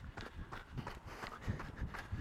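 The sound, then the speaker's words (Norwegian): Running footsteps on snow, at night, past the Vest-Agder county museum. Quick, soft, muffled strides repeat in a fast steady rhythm, faint throughout. “Jeg springer langs Agder eller Vest-Agder fylkesmuseum. Jeg er jo heldig med at det er jo snø,”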